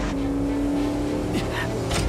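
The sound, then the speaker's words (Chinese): A race car engine drones at a steady, loud pitch throughout, with a bright tone holding through the middle. “看那边。 是星源赛车。”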